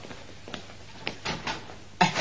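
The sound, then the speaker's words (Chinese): A door is opened by someone answering a knock from a visitor outside, a few soft clicks and rattles of the handle and latch followed by a louder, fuller knock or clunk at the end, with no voices. “我开门吓、啊，我开门。”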